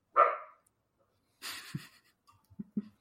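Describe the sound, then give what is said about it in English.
A dog gives one sharp, loud bark, followed by a few faint, short snuffling and shuffling sounds in near silence. “That's my dog.”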